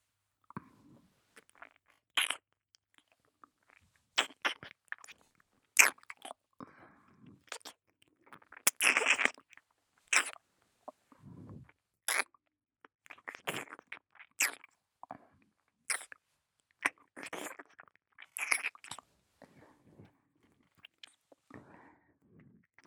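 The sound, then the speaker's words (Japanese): Wet ASMR ear-licking on the left ear: soft, sparse mouth clicks, smacks and slurps in irregular bursts over near silence, with no talk. “それでは今度は左側の耳も舐めていきますね。”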